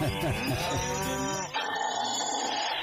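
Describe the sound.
A cow's moo, a drawn-out, low, harmonic bellow lasting over a second that breaks off near the midpoint, set against continuous music.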